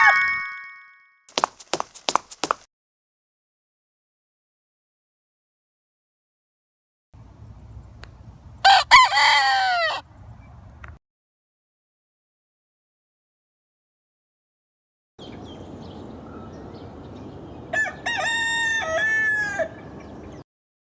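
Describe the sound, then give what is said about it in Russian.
A rooster crows twice, each call a loud, ragged cock-a-doodle-doo rising over a low rumbling background, separated by silences, after a few sharp clicks and ringing dings at the start. “Петух. Петух.”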